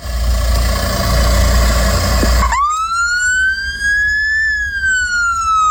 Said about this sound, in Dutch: Dit is het geluid van een Noorse ambulance.